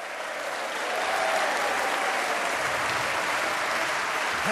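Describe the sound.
Audience applause at a BBC Chamber Prom concert in Aberystwyth, Ceredigion: dense, even clapping from a crowd that swells in the first second and then holds steady and loud.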